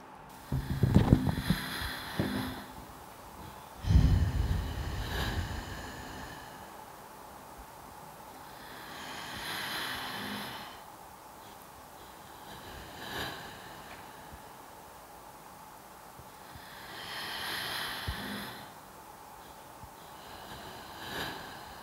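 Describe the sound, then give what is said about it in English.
Slow deep breaths taken during a guided breathing exercise: a few long, airy swells spaced several seconds apart, soft and breathy, with heavier low rumbling bursts near the start and no talking. “Now, please take 3 deep breaths with me.”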